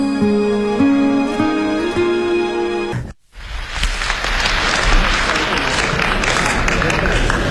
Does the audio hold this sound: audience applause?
yes

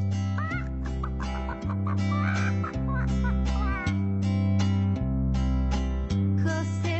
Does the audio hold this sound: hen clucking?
yes

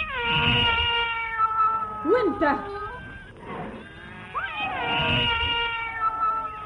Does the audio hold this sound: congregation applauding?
no

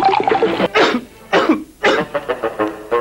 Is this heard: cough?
yes

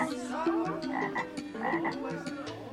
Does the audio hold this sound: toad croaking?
yes

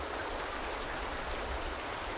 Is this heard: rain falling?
yes

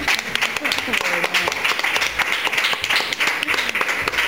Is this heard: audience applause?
yes

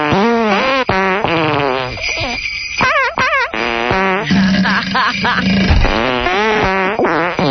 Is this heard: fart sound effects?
yes

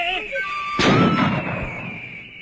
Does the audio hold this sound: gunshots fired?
yes

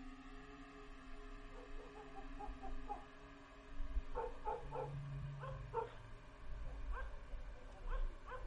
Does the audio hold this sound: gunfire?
no

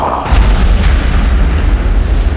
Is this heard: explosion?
yes

